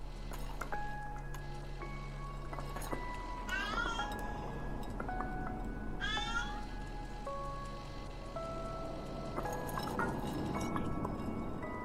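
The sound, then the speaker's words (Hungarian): A cat meows a few times and knocks objects over that shatter with glassy clinks in a cat video game, all faint over a steady tonal game background. “És hát persze le lehet lökni dolgokat a cicával. És a leeső dolgok összetörnek.”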